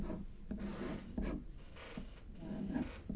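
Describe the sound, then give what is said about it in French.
Handwriting as a name is written out by hand: quiet, continuous scratching and rubbing strokes with a few distinct stroke onsets, steady and soft, with no talk. “Regardez, je vais vous écrire son nom.”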